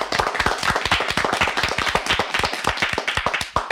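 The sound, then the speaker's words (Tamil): Audience clapping at a Tamil debate-style speech event, a dense, steady patter of many hand claps that holds at an even, fairly loud level throughout, with no voices over it. “உங்கள் கைதட்டலே நான் சொல்வதை ஆமோதிக்கிறது.”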